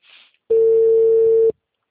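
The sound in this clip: A telephone rings unanswered with a single steady, pure ringback tone about one second long, preceded by a brief, faint hiss.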